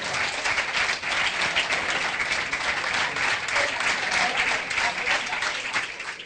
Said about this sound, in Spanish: Por eso escuchás los aplausos de fondo.